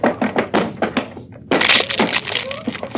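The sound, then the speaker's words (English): A locked door being broken down: a quick series of heavy thuds and knocks, then a loud crashing break followed by sustained rattling, splintering noise. “It's locked. Well, break it down.”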